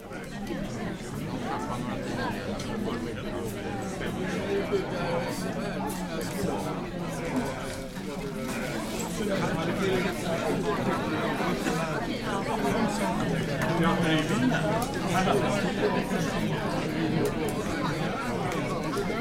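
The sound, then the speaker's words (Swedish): Steady murmur of many people chatting in a municipal council chamber before a council meeting begins. An even, unbroken babble of voices with no single speaker standing out. “Ja, de ska ju börja 18.30, men man vet aldrig, så att jag kopplar in oss till fullmäktigesalen så hör vi när de kommer igång.”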